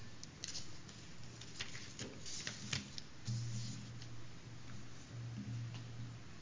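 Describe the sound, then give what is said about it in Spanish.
Paper pages that are sticking together rustle and crackle as they are pulled apart and turned, with a few irregular crisp flicks over a low steady hum. “las hojas estas, no sé qué le ocurre, pero se pegan, hoy se pegan.”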